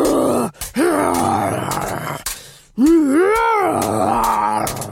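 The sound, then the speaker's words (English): Groaning and grunting voices from an audio drama fight between a warrior and a big monster: a few long, strained vocal groans, the last one loud and rising then falling in pitch, with no other sounds. “So I made this audio drama and it's got this warrior and a big monster fight. Ugh, but this is what it sounds like right now.”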